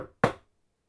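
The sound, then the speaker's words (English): Knuckles rap once on a bedroom door, a single short, dull knock that is faint and followed by silence. “He stepped lightly across the landing, rapping the door.”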